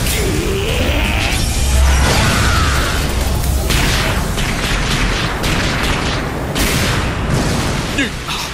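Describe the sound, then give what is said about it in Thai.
Spirit fireball attack whooshing and exploding in an animated battle: a dense, loud, continuous roar of swishes and booming blasts that stays heavy throughout. “เก่งก้าลูกไฟวิญญาณ”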